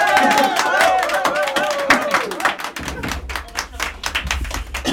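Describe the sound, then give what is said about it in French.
Parents applaud at a school evening performance, with many quick overlapping claps running throughout. Shouting, cheering voices rise over the clapping in the first half, then plain clapping continues. “Allez les parents, faites-vous entendre. Applaudissements.”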